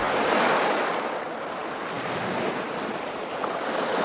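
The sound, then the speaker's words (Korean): Waves wash onto a seashore in a steady, broad roar with gusting wind mixed in, with no voices present. “바닷가에 내려가 주변을 살펴본다.”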